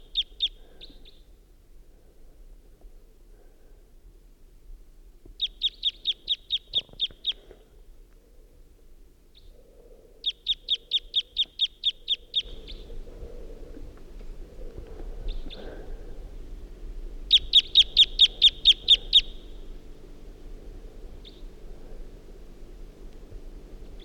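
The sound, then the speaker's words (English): A wild bird gives type 2 calls and song at dawn, just before six in the morning. Several bursts of rapid, high-pitched pulsed trills are separated by quiet gaps, and a low background murmur grows louder midway through. “there's a wild bird around who is giving type 2 calls and song. Stop. Start recording the wild bird.”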